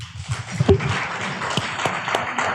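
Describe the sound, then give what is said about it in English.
Audience applause at a live panel event: a dense, even wash of clapping that keeps going throughout, with a few sharper individual claps standing out. “can we give a big round of applause to the technicians”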